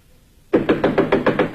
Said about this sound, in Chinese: 这时传来敲门声，是雅果的妻子艾米莉亚